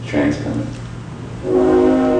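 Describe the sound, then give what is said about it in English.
A freight train whistle from railroad tracks behind a house sounds a sustained, chordlike blast over low rumble, rising in strength for a steady final stretch. “Ravi Coltrane interrupted to point out the whistle of a freight train drifting up from the railroad tracks that run behind the house”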